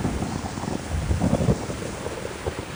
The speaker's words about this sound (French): Un orage gronde soudain comme une menace au-dessus de leur tête. Le vent se met à siffler dans les arbres.